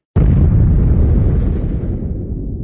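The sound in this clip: Bomb explosion after a failed bomb-disposal attempt: one sudden, loud blast opening into a deep, broad roar that holds steady, then slowly fades, with nothing else audible.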